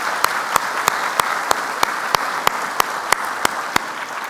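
Church audience applauding to welcome visitors at a morning service, a steady bed of clapping punctuated by about a dozen sharp, evenly spaced claps in a regular pulse.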